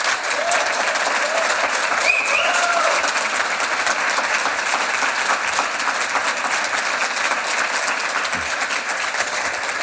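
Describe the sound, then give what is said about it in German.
Audience applause at a live event as guests are welcomed: steady, dense clapping from a crowd, sustained evenly at a loud level throughout. “der Applaus kann gleich weitergehen.”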